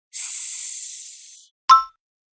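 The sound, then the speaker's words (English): A voice imitates a snake with a sustained, bright hissing S, held for about a second and a half while fading slightly. A short, sharp click follows after a brief silence. “Make sure your tongue is at the top of your mouth behind your teeth, like a snake. Say,”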